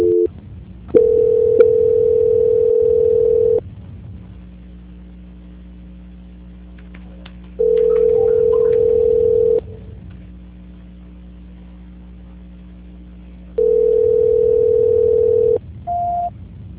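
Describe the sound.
Telephone line tones play while a call is being transferred: three long, flat, steady tones separated by pauses over a low hum, then a short higher beep.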